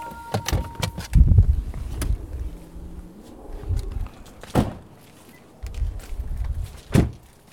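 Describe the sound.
An electric car's charging cable is plugged into its small charging port, giving a few dull clunks and thuds and a brief steady electronic tone near the start.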